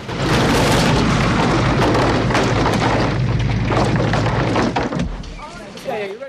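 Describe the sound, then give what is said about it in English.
A house explodes into flames and collapses into smouldering rubble. A loud, sustained booming roar with dense rumbling continues throughout and eases slightly toward the end. “The house explodes into flames and eventually collapses into a heap of smouldering rubble.”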